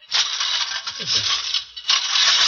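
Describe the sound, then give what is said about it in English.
Push lawn mower cutting grass with its grass catcher dragging: a loud, steady rattling whir that runs almost unbroken, dipping briefly near the end before resuming. “I'm cutting the grass.”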